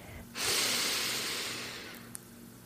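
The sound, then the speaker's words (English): One long, deep breath drawn in through the nose or mouth: a loud, airy hiss that starts abruptly and then slowly tapers off over about two seconds, alone with no talk. “Let's take a deep breath right now.”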